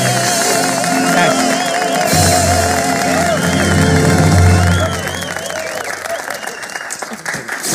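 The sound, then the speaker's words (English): Enthusiastic audience clapping and cheering in the comedy film Robin Hood: Men in Tights. Dense, loud applause holds steady for about five seconds, then thins and fades toward the end. “That's why they're clapping.”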